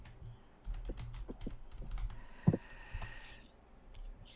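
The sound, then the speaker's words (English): Quiet typing on a computer keyboard, with irregular light clicks and a few sharper keystrokes, tapped out alone with no talk. “Let me type that in here.”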